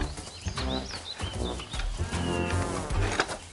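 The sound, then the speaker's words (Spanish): A calf mooing after being separated from its mother, with loud, drawn-out low calls that repeat through the whole stretch and fill it without a pause. “¿Ustedes creen que este ternero debe estar aquí? Yo no lo creo. Su lugar está allá, con su madre.”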